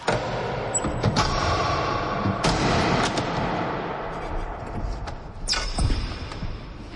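The door of a large, loudly clattering life-saving machine being shut, with a few heavy bangs and thuds over a steady rumbling machine noise.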